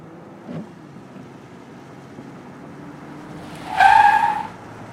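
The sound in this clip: Car speeding down a rough, scary ravine road after veering off a jammed highway: a steady low rumble throughout, then a brief, loud tire squeal or skid near the end.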